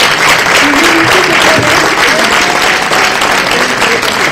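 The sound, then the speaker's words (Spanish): Loud audience applause at a political assembly, marking a motion approved by consensus. It is a continuous wash of clapping that holds steady at full strength for the whole clip. “¿Podemos considerar entonces que se aprueba por consenso y por absoluta mayoría? Sí. Muy bien, pues esto merece un aplauso de los primeros, ¿no?”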